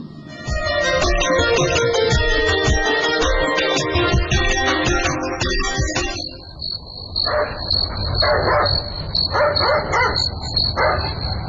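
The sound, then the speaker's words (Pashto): A dog barks at night in a few repeated, short, gruff barks in the second half, over a steady high chirring of crickets. “نه پوهېږم چې دا سپی ولې غاپي. خامخا خبره شته.”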